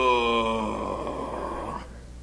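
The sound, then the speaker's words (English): A voice imitates the drawn-out groan of an old person getting out of bed: a single sustained, voiced moan lasting about two seconds, its pitch sagging slowly downward before fading out. “We get up and down in our pew and we groan. Ugh. If you heard me getting out of bed this morning.”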